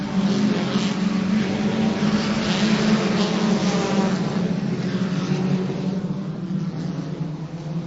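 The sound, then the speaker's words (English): Four-cylinder Lightning class race cars taking the green flag at Scotia Speed World: a steady, droning engine roar holds throughout, then eases slightly toward the end. “Here they come, the four cylinders. The Lightning class is green.”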